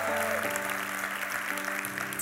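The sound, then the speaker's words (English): An audience claps together during a church gathering in Germantown, a steady wash of applause over sustained instrumental tones. “So, okay, everybody in this room, can you put your hands together? Welcome everybody in Germantown, everybody online, come on.”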